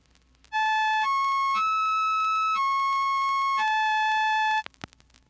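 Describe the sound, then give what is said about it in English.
Five sustained electronic notes rich in overtones play in an unbroken line, stepping upward in pitch and then back down, each a steady bright buzzy tone with no voices. “let's listen to a succession of notes without overtones. Now here they are again, this time with overtones.”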